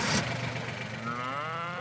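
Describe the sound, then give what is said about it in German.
German Angus beef cattle moo on a farm: one long, low, drawn-out call with a wavering pitch over a steady rumbling background. “Ihre Deutsch-Angus-Rinder sind eine reine Fleischrasse.”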